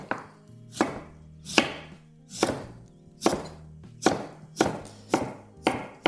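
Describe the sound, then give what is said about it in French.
Knife chopping sweet potatoes: many crisp, sharp thunks in a steady rhythm, roughly two a second toward the end, each with a short fading tail, alone and without talk. “Je vais terminer de découper mes patates douces.”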